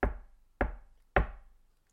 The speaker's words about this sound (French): Il frappe doucement à la porte.